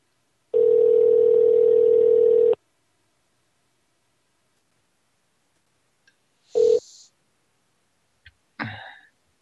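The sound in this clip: A telephone ringback tone sounds once as a single steady, mid-pitched hum for about two seconds while a call goes unanswered, followed by silence and a few brief, sharp noises.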